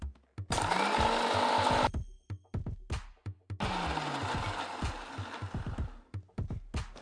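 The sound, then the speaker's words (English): An electric grinder whirs as it grinds vindaloo paste from turmeric powder and vinegar, with two long, loud whirring runs and several short pulsed bursts between and after them. “and 4 tablespoons of vinegar, and we are going to grind it to make vindaloo paste.”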